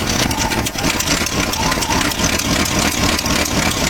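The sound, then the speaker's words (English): A junky old car's engine idling, a loud, rough, constant rumble with a fast sputtering pulse running through it and no talk. “customers who arrive in junky cars that sound like this”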